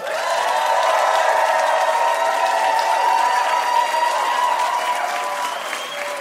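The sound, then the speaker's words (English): Audience applause welcoming guest Kal Penn, a film and television actor: steady, dense clapping from a crowd that holds at an even level throughout and eases slightly toward the end. “Give it up for Kal Penn.”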